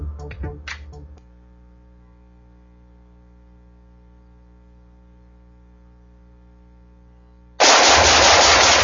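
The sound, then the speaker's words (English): Gunfire opens with a few sharp cracks, then a low steady hum holds for several seconds. A loud, sustained burst of rapid shooting follows. “Nice shooting.”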